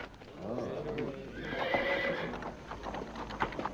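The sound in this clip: A horse approaches carrying a rider, its hooves clip-clopping steadily while it gives a loud, wavering whinny. Hoof beats continue on after the neigh.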